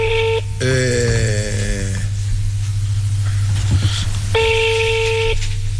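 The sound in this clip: Telephone tones while placing a direct call: a short tone, then a falling sweep of stacked tones, and after a pause a longer steady tone. A constant low hum runs underneath throughout.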